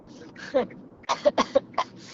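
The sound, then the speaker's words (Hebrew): A woman coughs, first one hoarse cough and then a quick run of short, throaty coughs mixed with throat-clearing, fairly faint. “כאילו כל נשימה אני משתעלת.”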